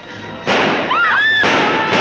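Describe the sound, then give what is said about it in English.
Gunshots ring out in a 1946 drama film as a man flees from a town centre: a few sharp, loud bangs over a rushing background. “George runs desperately from the centre of town with gunshots ringing his ears”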